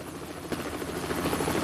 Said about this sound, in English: Its rotors whir as it inches down towards the forest floor.